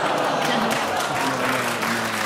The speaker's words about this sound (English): That was a curious mixture of groaning and clapping.